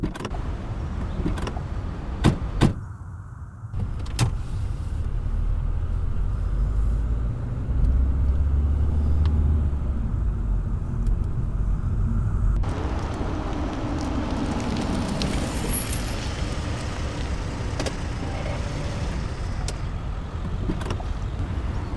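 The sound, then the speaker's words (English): A car drives around to the back of a building, its engine giving a continuous low rumbling drone with a few sharp clicks early on and a change in the noise partway through. “Kate, you and Jameson take the front. I'll drive around the back.”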